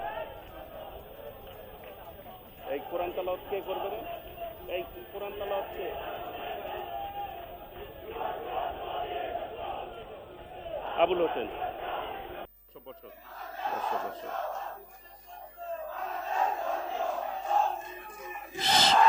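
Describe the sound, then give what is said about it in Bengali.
Crowd chanting slogans at a meeting: many voices shouting in rising and falling surges, with muffled, low-fidelity sound and swelling bursts toward the end. “সবাই দয়া করে slogan বন্ধ করবেন।”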